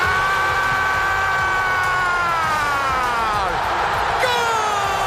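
A stadium crowd roars after Messi's goal for Argentina against Egypt in a World Cup round-of-16 match. The dense, loud cheering stays steady throughout, with sustained tones running through it.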